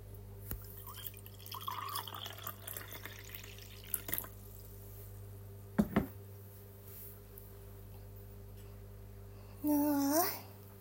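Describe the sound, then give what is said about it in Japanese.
Liquid is poured into a glass during a drinking challenge, a brief gurgling stream near the end whose tone rises as the glass fills, after a long quiet stretch with a few faint clicks. “次を注いでいきますね。”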